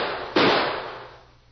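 A single gunshot cracks out during a shootout, sharp and loud. Its broad report fades away over about a second above a steady low hum.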